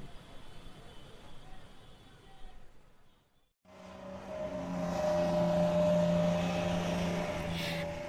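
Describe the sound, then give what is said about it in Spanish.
Low engine rumble of a bus arriving. After a brief quiet gap, the deep, steady drone returns and grows louder, then holds. “Llegó nuestro bus, ¡vámonos!”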